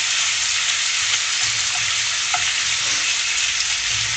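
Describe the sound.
Bacon sizzles in garlic-infused olive oil in a pan on a gas stove, a loud, steady, dense hiss of frying that continues without a break.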